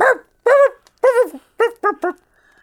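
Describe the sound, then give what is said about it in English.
A dog barks six times in short, yappy, mid-pitched bursts with quick gaps between them. The barks are loud and clear, and no voices are heard. “Floppy ears? Okay, is it this dog?”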